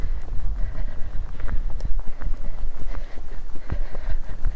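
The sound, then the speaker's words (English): A mare's hooves clip-clop in a steady trot during a schooling session on a rein, with many quick, even hoofbeats in a regular rhythm, fairly loud and without voices. “Half halt, trotting on.”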